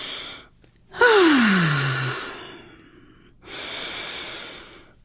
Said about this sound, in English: So take a couple of breaths.